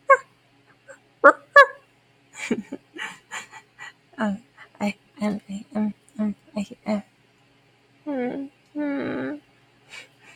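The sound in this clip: A person imitates a puppy barking on command. The voice makes a run of short yips and whimpering sounds, then two longer, strained yelps near the end.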